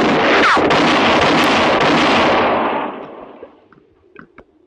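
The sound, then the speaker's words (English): A single loud gunshot in a confrontation booms and rolls on for nearly three seconds before dying away, leaving a few faint clicks and knocks. “Had enough? Answer me or I'll shoot again.”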